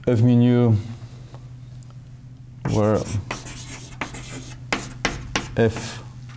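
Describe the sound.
Writing on a board during a lecture: scratchy strokes in short, uneven bursts, with brief speech before them.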